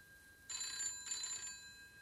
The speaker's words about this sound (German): Es war das Telefon. Ich hielt meine Augen geschlossen und lauschte.